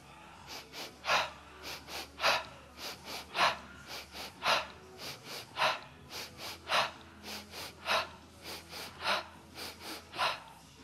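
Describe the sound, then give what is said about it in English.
Rapid, forceful breathing in an energizing breath exercise: many quick, evenly spaced puffs of breath in a steady rhythm, moderately loud, with no talking. “to the degree that you want to energize the mind is the speed of the breath that you use. So you can start building the pace.”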